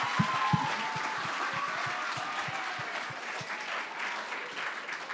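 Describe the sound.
Church audience applauding, a steady, fairly quiet patter of many hands clapping with a brief whoop near the start, even in level throughout.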